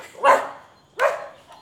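A small dog gives two sharp, high barks about three quarters of a second apart, with nothing else heard around them.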